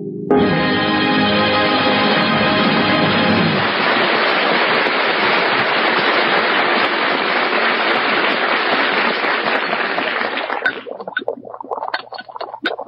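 Liquid bubbling as it comes to a boil gives a loud, continuous fizzing and hissing rush, with a tonal hum at the start, holding steady for about ten seconds before breaking into scattered crackles and pops.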